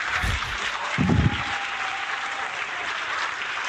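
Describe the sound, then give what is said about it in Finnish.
Applause from a small group, a steady wash of clapping lasting several seconds at moderate loudness, with a few louder claps near the start before it evens out. “annetaan tässä välissä kuitenkin aplodit meidän kaikille hienoille kuuntelijoille, jotka on antanut meille palautetta.”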